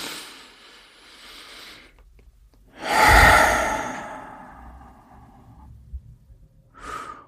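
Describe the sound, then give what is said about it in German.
A deep breath is taken in and let out: a soft, airy inhale, then a louder, long exhaling sigh, followed by one brief breath at the end. “Schließ dafür deine Augen und nimm einen tiefen Atemzug ein und aus.”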